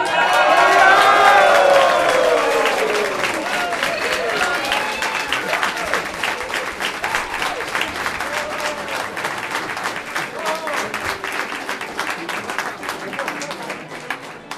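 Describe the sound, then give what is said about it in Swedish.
Audience applause and cheering for a new female game leader, loud dense clapping with lively voices calling out at the start, then easing to a steady, slightly softer patter that carries on to the end. “tar och ger våran färska, läckra spelledarinna en ordentlig applåd.”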